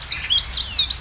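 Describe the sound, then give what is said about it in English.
Chiffchaff calling: a brisk run of high, thin notes that alternate between two pitches in a repeating see-saw pattern. “This is the call of the chiff-chaff.”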